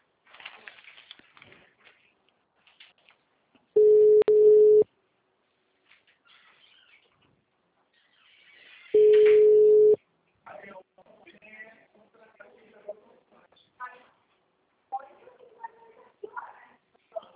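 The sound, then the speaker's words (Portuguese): A telephone ringback tone sounds as two long, steady, single-pitched buzzes, each about a second long, separated by a pause of several seconds. Faint voices are heard around the tones and after them. “chamando.”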